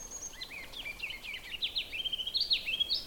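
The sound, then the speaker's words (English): Ruby-crowned kinglet calling from the branches of a large white birch: a faint, quick run of many thin, high-pitched chirping notes that grows a little louder toward the end. “And this is a ruby-crowned kinglet.”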